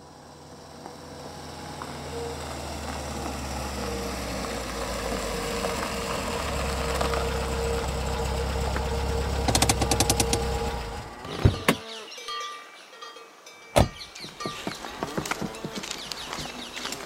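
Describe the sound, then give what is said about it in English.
A taxi engine idles with a steady, low rumble that builds slightly, then falls away and is followed by a few sharp clunks and rattles. “It's a shame the taxi couldn't drive nearer.”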